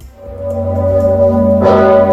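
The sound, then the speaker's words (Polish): Deep tolling of the huge, famous church bell at Wawel in Kraków, swung by bell-ringers pulling ropes on Independence Day, a loud sustained low humming resonance renewed by another strike near the end. “Najsłynniejszy dzwon w Polsce dzwonił przez 8 minut. Jak zwykle kolos został uruchomiony przez wawelskich dzwonników, którzy pociągali za sznury.”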